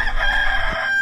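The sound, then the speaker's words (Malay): Cock-a-doodle-doo from a rooster: a single sustained crow with a high, steady tonal line that fades out near the end, heard alone without talk. “Bunyi ayam juga, mak.”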